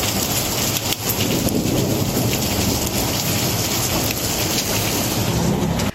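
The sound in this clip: Steady, heavy rain pouring onto surfaces during a thunderstorm in the Murcia region, with low rumbles of thunder rolling beneath the dense, unbroken hiss.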